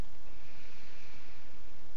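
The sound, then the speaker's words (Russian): A deep, drawn-out inhale during a guided breathing exercise, a steady airy rush of breath held at an even level for about two seconds, heard alone without talk. “И сейчас мы делаем глубокий вдох.”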